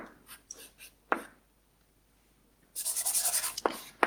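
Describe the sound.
Scratchy handwriting strokes during a lecture on formal semantics: a few short scrapes, then a longer run of rapid, brushy strokes, ending with a sharp tap. No one talks over it.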